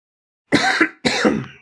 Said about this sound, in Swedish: ursäkta för mitt jävla konstanta hostande